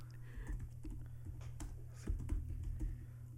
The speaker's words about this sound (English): Type it out.